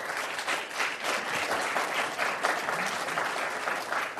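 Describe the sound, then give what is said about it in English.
Sustained applause from an audience welcoming two guest speakers at an event in San Francisco: dense, steady clapping that holds an even loudness for the whole stretch, with no voices standing out. “Please give them a warm welcome.”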